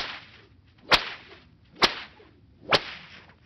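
Three sharp, loud whip cracks at a sled pulled by a dog team, evenly spaced over a soft hissing background.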